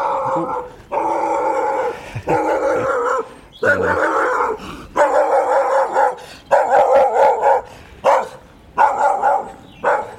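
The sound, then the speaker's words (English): A brown Labrador-cross dog barks on a quiet rural lane in early spring, letting out many drawn-out, howl-like barks in an uneven rhythm, loud and clear with no voices over them. “Morning dog. Brown, sort of Labrador cross type thing. Very cross.”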